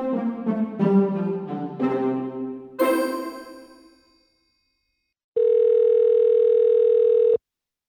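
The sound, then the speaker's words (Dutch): Telephone ringback tone while a call is being placed: a single long, steady mid-pitched tone holds for about two seconds after a pause, preceded by a few bright chiming notes that ring out and fade away. “En Joost ga ik nu bellen.”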